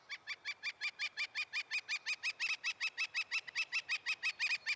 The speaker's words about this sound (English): That's the sound of a northern flicker, a brownish woodpecker, larger than a robin, smaller than a crow